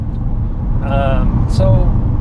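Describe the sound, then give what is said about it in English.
Car noise from inside a moving car, a steady low road and engine drone running throughout beneath people talking. “Yeah, in the car. Yeah. So you got the car noise.”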